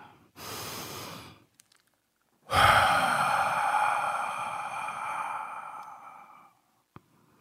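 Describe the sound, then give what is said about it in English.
A deep human breath: a short audible inhale, a pause, then a long, slow, breathy exhale that fades out, quiet and with no talking. “let's take a deep breath.”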